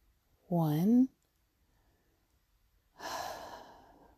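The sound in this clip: Slow breathing during a guided meditation: a short voiced sigh, a pause of near silence, then a long, soft, breathy exhale that gradually fades.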